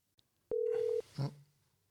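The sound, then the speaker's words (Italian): Outgoing voice-call ringing tone from the Telegram app: one steady, loud half-second tone, then a lower, shorter tone that trails off into quiet. “Anzi no, guarda, lo chiamo su Telegram che ce l'ho qui davanti. Vai.”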